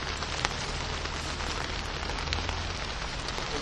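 Steady rain falls on an outdoor gathering, a dense continuous hiss of drops with scattered small ticks. It stays even and unbroken throughout, with no voices.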